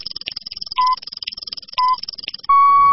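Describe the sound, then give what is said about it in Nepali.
Radio station time check signal: two short beeps of the same pitch about a second apart, then a longer sustained tone at that pitch that runs to the end, with other sound beneath the first two beeps. “Shukla Gandaki time check.”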